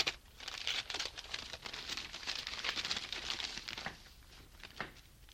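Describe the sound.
An envelope is opened with soft paper crinkling and rustling, a few small tearing crackles, and then a quieter trailing rustle. The sound is faint throughout.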